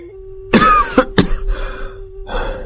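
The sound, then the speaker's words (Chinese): A man coughs in a prolonged fit after drinking strong imperial wine: a few harsh, loud bursts close together, followed by rougher, lingering coughs that trail off and then return once more. “咳了好一阵儿”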